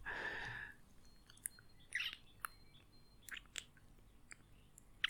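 Someone chewing a rib makes scattered, irregular wet crunches and sharp clicks, fairly faint, with quiet gaps between bites.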